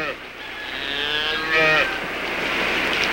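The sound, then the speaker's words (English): A Jersey cow gives a single drawn-out, low moo that swells and then fades, heard alone over a steady background hiss with no talking. “Been a long time since I've seen a Jersey cow.”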